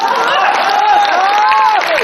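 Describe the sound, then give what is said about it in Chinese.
An audience claps steadily throughout a live stage performance, a dense, even patter of hands with a voice speaking over it. “来来来来来， 咱这鼓掌不太热烈。”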